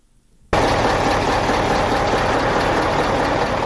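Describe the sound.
Loaded trucks idle at the Torkham border gate while they wait to cross into Afghanistan. After a brief near-quiet moment, a steady, loud diesel rumble starts abruptly and holds evenly to the end.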